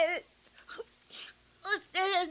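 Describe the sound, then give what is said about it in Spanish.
A child cries in short, broken bursts of high, wavering whimpers and wails, separated by brief pauses. “de cualquier manera está llorando.”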